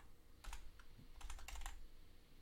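Keys are typed on a computer keyboard in two quick bursts of soft, faint clicks, with a short pause between them.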